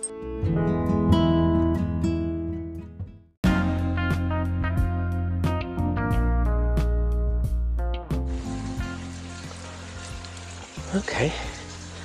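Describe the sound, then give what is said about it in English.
Running water from the Fuente de Agua de las Sierras, a natural spring flowing into a trough in a village corner, surfaces as a steady hissing rush once a stretch of music ends; a voice speaks briefly. “Well, that noise you can hear there of water running is the Fuente de Agua de las Sierras, which is the natural spring water”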